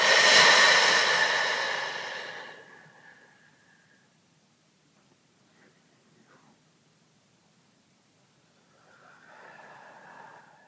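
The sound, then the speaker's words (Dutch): A person breathes out on a hissed F sound. The loud, breathy exhale fades over a couple of seconds, followed by a long quiet stretch and then a softer breath near the end. “Adem in. En adem uit op een F.”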